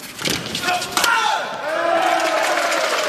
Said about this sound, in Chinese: 现场给中国队加油助威的声音响彻整个体育馆